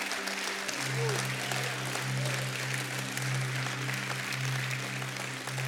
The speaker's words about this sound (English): Give God a hand.